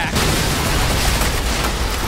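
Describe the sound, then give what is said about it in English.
Explosion of a reactor in the video game Dead Space (2023): a loud, sustained blast roar with dense crackling rumble that fills the whole stretch without letting up. “Okay, once she's recovered from that initial blast, we'll be back in the fight.”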